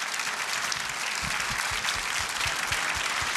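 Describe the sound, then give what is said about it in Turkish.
Audience applause as stage performers are introduced one by one, a fairly faint but continuous, even wash of many hands clapping, without any voices over it. “Kocaman alkışlarınız bizlere de moral olacaktır.”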